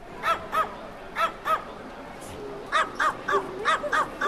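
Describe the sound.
Dogs bark in the lobby of a New York hotel, the Hotel Pennsylvania, giving sharp, high yaps in two bursts: a few at first, then a short pause, then a quicker run of many overlapping barks.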